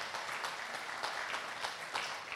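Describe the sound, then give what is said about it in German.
A church audience applauding: steady, dense clapping from many hands that is soft and continuous throughout. “Und ich finde, dafür geben wir euch einfach mal einen Applaus, dass wir sagen, wow, ihr seid echt mutig.”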